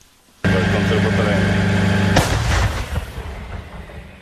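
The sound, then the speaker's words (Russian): Ukrainian artillery fires a single loud boom that cuts through a steady, droning hum. A rumbling tail follows the blast and fades gradually. “Мелітопольське направлення тільки що відпрацювало. Украинская артиллерия.”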